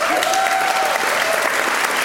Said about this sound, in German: Dafür einen Applaus bitte.